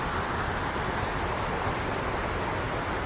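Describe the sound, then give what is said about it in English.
Rushing water flows between hundreds of moss-covered rocks and boulders, a dense, unbroken hiss with no distinct splashes that stays at an even loudness for the whole stretch. “In the water itself, there's hundreds of rocks and boulders covered in vibrant green moss.”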